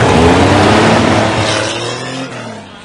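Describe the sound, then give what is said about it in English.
A car drives off, its loud engine roar and low droning tones steadily fading as it pulls away. “watches him drive off”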